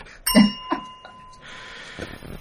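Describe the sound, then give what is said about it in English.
A mobile phone falling onto a framed photo: a sharp clatter with a ringing, bell-like tone, then a second lighter knock a moment later, fading into faint background noise. “What was that? That was my phone falling on to my picture of me, Debbie, and Mark Gatiss”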